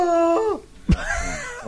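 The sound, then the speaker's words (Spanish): A sea lion call from a recording: drawn-out, harmonic, moaning tones that bend downward in pitch, then a short low grunt-like burst and more wavering calls, moderately loud. “Eso es idioma lobo marino. Tiene que decirle buen día, ¿me entiendes? Acabo de grabar ese audio.”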